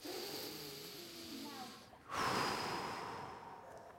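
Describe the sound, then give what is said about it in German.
People breathe slowly and deeply in and out during a calm group breathing exercise. The breathy airflow is faint, and a longer, louder rush of exhaled air comes midway. “Einatmen und ausatmen. Einatmen und ausatmen.”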